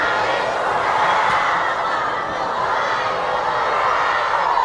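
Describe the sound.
A large audience answers an Islamic salam greeting together. Many voices merge into a loud, sustained crowd murmur that swells and fades slightly.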